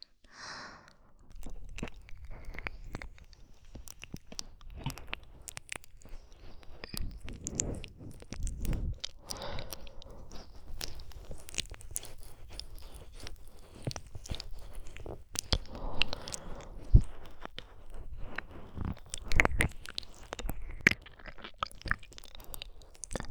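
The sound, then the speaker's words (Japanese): Slow, wet licking with the whole tongue, a steady run of many soft, moist smacking and squelching mouth sounds that continue without pause and without talk. “こちらも同様に舌全体でマッサージさせていただきます。ゆっくりとねっとりと舐めさせていただきます。”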